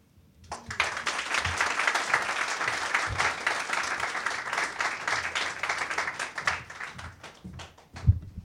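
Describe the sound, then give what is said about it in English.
Polite applause from an audience after a heartfelt spoken piece: steady clapping from many hands that starts abruptly and holds at an even level for about seven seconds, then tapers, with a single sharper clap near the end. “I like that polite applause. Thank you all. Thanks, everyone.”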